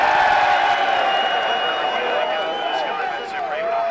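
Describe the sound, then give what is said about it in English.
A huge crowd of spectators in packed grandstands roars as the first horse race of the Cheltenham Festival sets off. The cheering is loud and sustained, with individual voices shouting above it and easing slightly toward the end. “That was the sound of the first race setting off at this year's Cheltenham Festival, cheered on by 60,000 spectators leaning out of the corporate boxes packed into the grandstands.”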